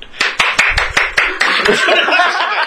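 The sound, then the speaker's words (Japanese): Sharp, rhythmic hand clapping in a quick, evenly spaced run, then chatter and laughter from several people join in and blur the later claps. “拍手やったんかそれ”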